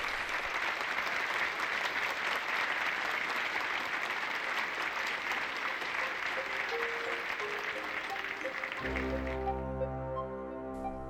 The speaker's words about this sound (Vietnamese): Tiếng vỗ tay vang dội tưởng như kéo dài bất tận